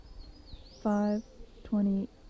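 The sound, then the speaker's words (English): Two loud, steady-pitched harmonic bird calls ring out from about 40 feet away behind a building at dawn, each lasting about a third of a second and separated by a short gap, over a faint background hiss. “Bird was about 40 feet away from me.”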